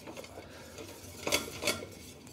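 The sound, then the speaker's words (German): A utensil stirs wheat flour into melted butter in a pot. It scrapes quietly at a low level, with two brief, sharper clinks against the pot partway through. “Zur zerlassenen Butter kommt welches Mehl? Das ist ein ganz normales Weizenmehl. Wichtig ist, dass das Mehl sich mit der Butter verbindet.”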